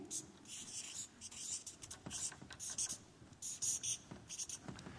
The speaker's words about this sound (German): Also wir schreiben hier mal das Reich dazu.